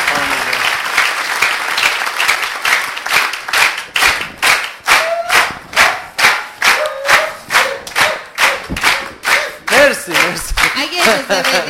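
An audience applauds, dense clapping at first that settles into loud, rhythmic clapping in unison, with a steady beat through the second half.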